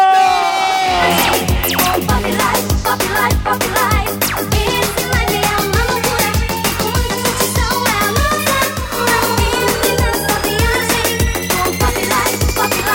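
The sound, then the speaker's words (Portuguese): A crowd shouts and cheers birthday wishes at a live DJ party at Fuxico do Farol in Mosqueiro. The loud voices rise over pounding dance music with a steady, driving beat. “E é aniversário dele hoje. E a galera grita assim, ó. Parabéns, Spock.”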